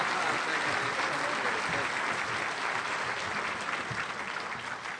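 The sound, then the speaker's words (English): An audience applauds to welcome the SEC commissioner as a speaker at a Bryan–College Station Aggieland event, dense steady clapping that stays strong throughout and eases slightly near the end. “Please help me give a big Bryan College Aggieland welcome to SEC Commissioner Mike Slive. Got a lot of whoops.”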